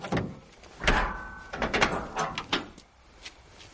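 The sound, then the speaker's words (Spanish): Mechanical clunks as a convertible's hood release lever is pulled at a gas station: a few short, dull knocks and clicks separated by brief pauses, moderately loud against quiet background. “Se acerca al descapotable y acciona la palanca de apertura del capó.”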